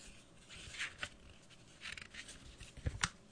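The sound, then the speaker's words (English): Playing cards flipped with one hand close to a microphone make a few dry, papery flicks and snaps. They are scattered unevenly, fairly faint, and come with no talking. “Sorry, I have one hand flipping cards. It's a little tricky. Making a little bit of a racket in the microphone.”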